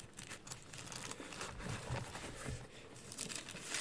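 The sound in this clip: Thin Bible pages rustling and crinkling as they are turned to Isaiah chapter 11 in a Sunday School class, a soft, continuous papery crackle with small crisp flicks scattered through it.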